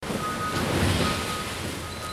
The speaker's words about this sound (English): This is the sound of a garbage truck dumping its entire contents on the floor of Re Community Recycling in Southfield.